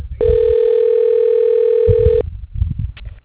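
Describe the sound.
Telephone ringback tone as an automated phone system dials an office extension, a single steady mid-pitched tone lasting about two seconds, followed by faint low rumbling noise.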